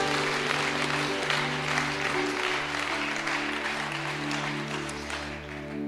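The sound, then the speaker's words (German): Audience applause at a gospel church event, a steady, even clatter of many hands over sustained tones, easing slightly toward the end. “Vielen, vielen Dank. Applaus”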